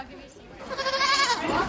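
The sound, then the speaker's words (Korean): Wavering, high-pitched bleats from small dwarf goat kids that have just arrived by car at a family party at a home, rising into a loud, sustained cry after a quieter start. “바로 난쟁이 염소라고 부르는 작은 염소들입니다.”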